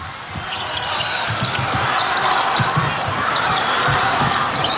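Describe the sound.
A basketball is dribbled during a Czech versus China game in overtime. Many quick, rhythmic bounces thud over steady arena noise, with a voice talking on top.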